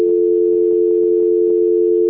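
A steady telephone tone during a call transfer: one continuous, unbroken, fairly loud hum-like tone that holds at a single pitch throughout.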